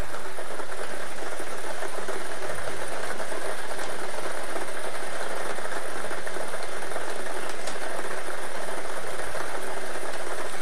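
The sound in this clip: A Daily Millions lottery draw machine spins its balls with a steady, loud, continuous whir that holds unchanged for about ten seconds.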